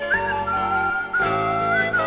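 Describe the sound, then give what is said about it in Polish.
Person whistling a wavering, mid-high melody over a rap beat, the whistled line sliding and holding notes steadily above layered music for about two seconds. “Zamiast was słuchać, ja wolę sobie pogwizdać.”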